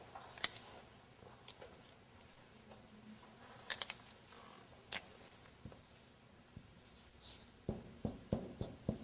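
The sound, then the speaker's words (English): Faint pen or marker strokes as a teacher writes something down during a language lesson: soft scratches and a few sharp ticking taps scattered irregularly over a quiet background. “Shall I write down for you? Okay, I will write down.”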